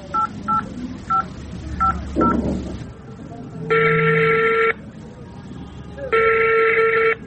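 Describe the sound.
A telephone call being placed: a few short keypad dialing beeps, then two long, steady ringing tones separated by a pause, loud and clear over a low background rumble.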